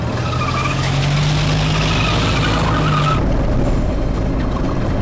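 A car pulling away fast with a long tire squeal. A sustained screech rides over loud engine and road noise for about three seconds, then cuts off as the rough roar carries on.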